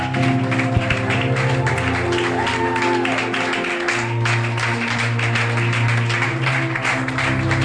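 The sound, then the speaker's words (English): An audience applauds at a church service as a reverend is welcomed. Steady, even clapping carries through the whole clip over a sustained low hum. “Putting our hands together, rising up on our feet, giving honor to whom honor is due.”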